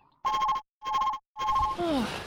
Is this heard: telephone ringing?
yes